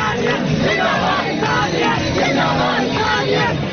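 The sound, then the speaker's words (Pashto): A crowd at a Holi celebration shouting slogans in unison: a loud, dense, continuous mass of yelling voices that never lets up. “د هولي منزلو پر وخت دغلته موجود خلکو د دغه مذهبي رسم تر مخه په یو بل د رنگونو شیندلو سره سره د انسانیت زنده باد نارې هم وهلې”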